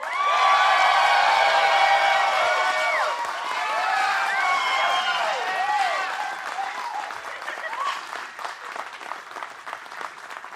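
An audience at a live show in Salt Lake City applauds and cheers to welcome two guests. Loud, sustained clapping carries whoops and shouts early on, then thins into scattered claps toward the end.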